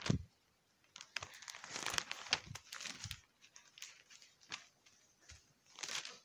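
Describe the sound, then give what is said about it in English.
A church audience turning the pages of their Bibles: many overlapping papery rustles and crinkles in irregular bursts, fairly faint, with no talk. “I hear less pages turning now. Y'all tired of turning pages.”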